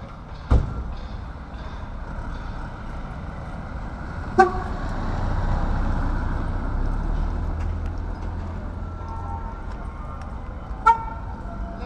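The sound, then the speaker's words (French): Car horn toots from a passing advertising truck, a few short, bright blasts spaced apart over a steady low rumble of street traffic. “Ah, un camion publicitaire.”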